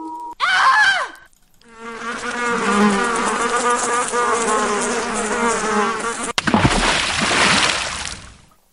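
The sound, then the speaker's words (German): A jingle for a cooking show of mostly vegetarian, meat-free dishes plays in several distinct sections: a brief tonal opening, then a long buzzy, humming passage, then a noisy, splashy burst at the end. “Das war das beliebte Jingle von unserer Show Kochen ohne Jochen.”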